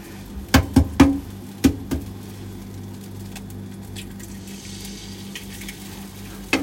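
An egg frying in a hot frying pan on weak heat while cooking gapao rice. A few sharp knocks and clatters come at first, then a faint, steady sizzle continues alone.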